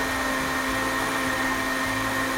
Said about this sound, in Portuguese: deixa eu desligar aqui o liquidificador